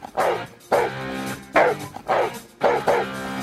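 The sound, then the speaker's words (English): A golden retriever barks five times in a loud, rhythmic series. Each bark is a sharp, full-bodied burst with a brief pause between. “holds the Guinness World Record for the loudest bark. Aww. It's been documented at 113.1 decibels. Louder than Deep Purple.”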